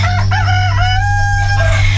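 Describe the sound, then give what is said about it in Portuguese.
Chickens clucking while a rooster crows, several overlapping harmonic calls rising and falling over a steady low hum. “Aqui vendo as galinhas.”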